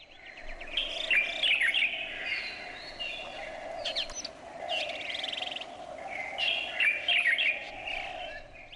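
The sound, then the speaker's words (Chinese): A light-vented bulbul sings two bursts of quick, bright chirping phrases, one early and one late, over a steady low background hum with softer calls in between. “因此我强烈怀疑这只白头鹎啊就直接飞到美加墨去了，看了一圈比赛然后回来了，回来以后他就学会了这样说话。”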